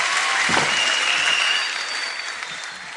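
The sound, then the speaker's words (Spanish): Audience applauding a rock band on stage: continuous, even clapping that stays loud and then softens a little in the second half. “El aplauso para Islas Mujeres en el escenario de los atardeceres de Tecnópolis.”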